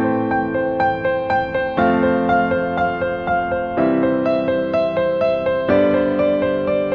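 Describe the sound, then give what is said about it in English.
Piano plays an A minor, F major, C major, G major chord progression: four chord changes roughly every two seconds, each held under steady repeated notes, moderately loud and alone. “Then just copy these to the piano, so we got A minor, F major, C major, and G major. Together it sounds like this.”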